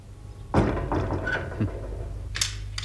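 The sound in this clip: A door shuts with a solid thunk, followed by a few lighter knocks and clicks as it is locked.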